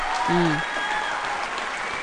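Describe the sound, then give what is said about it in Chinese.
Applause for colleagues at a department sports display: steady, dense clapping for about two seconds, with a brief voice rising over it near the start. “正在努力的同仁们啊，掌声。”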